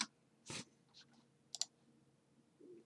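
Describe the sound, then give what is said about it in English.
A computer mouse clicks on a search result link: a few faint, sharp clicks scattered across a quiet background, with no speech. “I just search $500 in 1977. Does that work? And then I just click the first link, which is the inflation calculator.”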